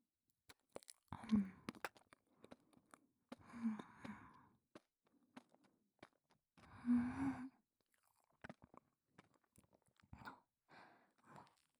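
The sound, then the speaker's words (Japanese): Wet chewing and mouth noises from someone eating, arriving in several separate bursts with breathy, sigh-like sounds between them and quiet pauses, with no speech. “まだあるから食べてくよ。”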